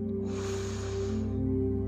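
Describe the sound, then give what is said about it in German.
A single slow inhale through the nose from a guided breathing exercise, a soft airy rush lasting about a second over a low, steady background hum. “Atme hier noch einmal durch die Nase ein.”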